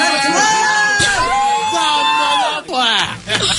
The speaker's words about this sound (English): Did we just say he's got the clap and start cheering?